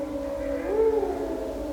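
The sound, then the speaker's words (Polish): A wolf howls in one long, sustained tonal wail that rises slightly in pitch midway and then eases back down. It is moderately loud and heard alone. “wilk wyje, bardzo dobrze, wilk wyje”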